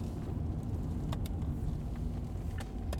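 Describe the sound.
Car engine and road noise as a car drives through Mørke, a small town roughly halfway between Randers and Grenaa. A steady low rumble runs throughout, with a few faint ticks.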